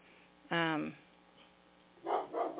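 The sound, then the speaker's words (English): A puppy barking, with one long, loud, tonal yelp followed after a pause by a couple of shorter, rougher barks. “Oh, you guys hear Emmy? Yeah, that's my puppy.”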